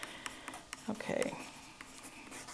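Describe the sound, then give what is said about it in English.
Handwriting on paper makes quiet, scratchy pen strokes in short irregular bursts, with a brief faint voice in the middle. “Wait a minute. Got to write this down.”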